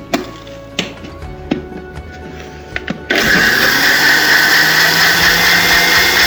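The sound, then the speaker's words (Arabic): An electric blender mixes powder, sugar and water. A few scattered clicks and knocks come first, then the motor kicks in with a loud, steady, dense whirring roar that holds to the end. “بعدها بيتم الخلط في الخلاطة العادية.”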